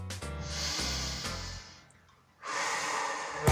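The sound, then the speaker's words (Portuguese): A deep breath taken to ease a side stitch while running: two long, airy breath sounds separated by a short quiet pause, heard alone without talking. “E se essa dor chegar, experimenta parar e respirar fundo.”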